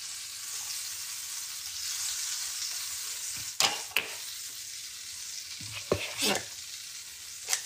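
Pancakes sizzle steadily in butter in a hot pan, a constant bright frying hiss with a few sharp scrapes and clinks of a utensil breaking through near the end.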